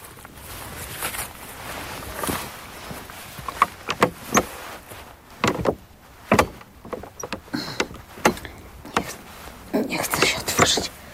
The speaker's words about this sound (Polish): Niestety już nie ma klamki z przodu, jest tylko z tyłu i są tak zaczaśnięte, że nawet tą tylną klamką nie jestem w stanie tego otworzyć.